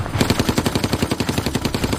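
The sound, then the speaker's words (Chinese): Machine gun fire from a tower across a river, a loud rapid burst of evenly spaced shots pounding in a steady rhythm with no pauses and no voices. “忽然，河对岸塔楼上的机关枪猛烈地扫射起来。”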